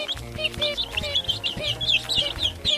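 Chickens cluck and chirp, with many short, high calls repeating steadily throughout and a constant low background.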